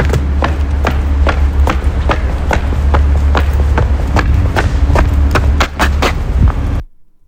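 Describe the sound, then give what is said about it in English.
Football boots walk on pavement down the race onto the field, giving many evenly spaced, sharp clacking steps in a steady rhythm over a low rumble until they stop abruptly near the end. “That is boots on pavement coming down the race onto the field.”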